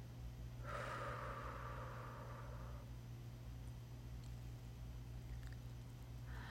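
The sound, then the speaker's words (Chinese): A slow exhale during a breathing exercise, a soft breathy rush lasting about two seconds over a steady low hum, then quiet. “感受一下我们的胸腔充满氧气的感觉。慢慢呼气”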